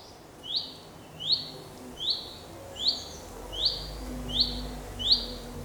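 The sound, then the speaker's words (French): A bird sings in a forest in northern France, giving seven evenly spaced, high, quick chirps over a faint, steady background hum. “Nous sommes en forêt de Marchiennes, entre Douai et Valenciennes, où les oiseaux s'en donnent à cœur joie.”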